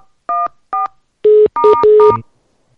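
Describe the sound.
Telephone keypad tones from pressing number buttons: two short, evenly spaced beeps, then a quicker run of several longer, overlapping tones, loud and clear with no voices.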